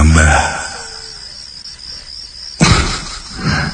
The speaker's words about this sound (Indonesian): Sesekali kudengar suara binatang malam seperti jangkrik